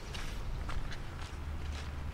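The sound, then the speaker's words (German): Two people walk on a winding dirt path through trees, past drying mud beside puddles. Their soft, irregular footsteps crunch at a leisurely pace over a low steady rumble, with no talking. “Wir machen einen Spaziergang. Vom Haus ist es nicht weit bis zu einem Feldweg, der sich durch die Bäume schlängelt.”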